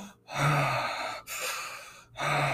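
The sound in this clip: A person imitates a cold-exposure breathing technique with loud, forceful breaths of rushing air, each separated by a brief silent pause, with no speech.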